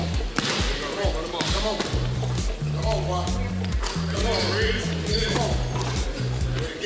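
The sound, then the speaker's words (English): A basketball bounces repeatedly on a court during a three-point shooting drill, its regular low thumps running steadily beneath someone talking. “Working on some three-pointers, running baseline to baseline. You can see he is making these shots”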